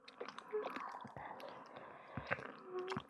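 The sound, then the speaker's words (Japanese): Wet chewing and mouth sounds as sweets are eaten with the tongue, a quiet run of soft squishes and smacks with several sharper clicks, no voice. “舌でお菓子食べる。”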